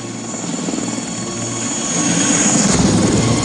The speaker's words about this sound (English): A Russian chopper hovers.